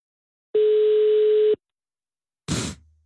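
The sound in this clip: A telephone ringback tone plays while calling someone: one steady, mid-pitched beep lasting about a second, then after a pause a short, loud crackling burst of noise that quickly fades.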